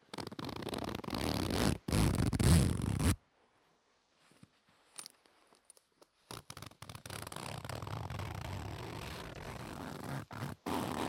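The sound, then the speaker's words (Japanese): A cheap, lightweight pencil-case zipper rasps loudly in a long pull, with a brief catch near the start. After a quiet pause of about three seconds comes a second long zipping run, broken by short stops. “ズボンとかについているやつじゃなくて、筆箱とかについている軽い 安い系の、安物系のファスナーですね。”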